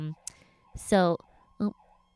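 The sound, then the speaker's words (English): A faint wavering siren tone runs through the whole clip, broken by a few short, louder bursts. “sirens.”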